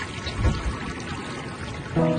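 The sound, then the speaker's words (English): A canoe stirring the surface of a lake: soft, quiet water swishing and trickling runs continuously, with a slightly fuller swell of sound near the end. “The morning sun on your face, a canoe stirring the surface of a lake.”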